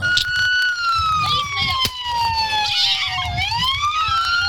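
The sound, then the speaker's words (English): A police siren wails steadily for several seconds, its pitch sliding slowly downward and then sweeping back up. The siren stays loud and continuous throughout. “The only regret I have is that you couldn't really hear her yelling out over the siren.”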